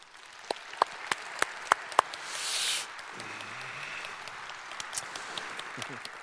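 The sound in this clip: Church audience applause welcoming a speaker, heard as sparse, sharp claps at an even rhythm over quiet background noise, then a brief hissing swell and a low voice, with a few more scattered claps after.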